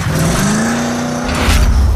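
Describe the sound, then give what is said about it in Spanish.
A car engine accelerates in heavy traffic with a loud, continuous drone whose low tone climbs gradually, then thickens into a rougher roar near the end. “atascado y el tráfico espantoso. ¡Oh, acelera, oh! ¡Acelera! ¡Oh, acelera! ¡Acelera, oh!”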